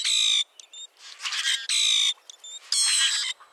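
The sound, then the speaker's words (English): Metallic song of a common grackle: three loud, harsh, buzzy bursts with bright ringing overtones, separated by softer creaky notes and short clicks, all alone without other sounds. “Some birds sound almost mechanical, like the metallic song of the common grackle,”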